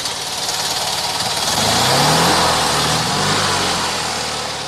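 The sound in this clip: A Fiat 126P car engine runs at idle after standing in traffic jams, a low, rough mechanical drone with a steady putter that swells slightly midway.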